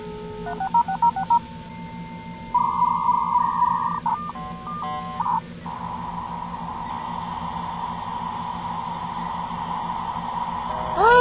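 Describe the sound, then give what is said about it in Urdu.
A phone number is tapped out for a dial-up internet connection: quick bursts of touch-tone keypad beeps, then a long steady tone over a low hum, and a short burst of sound at the very end. “ارے کون سا number dial کر رہی ہو، 3660003 dial کرو نا۔”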